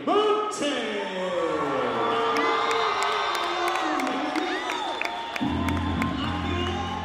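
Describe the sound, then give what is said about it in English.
A crowd at an MMA event roars for a local fighter entering the cage, a continuous swell of cheering and whoops with scattered claps, and a low droning sound joins in near the end. “It was really exciting to hear the crowd react to you. You got the biggest pop of the night.”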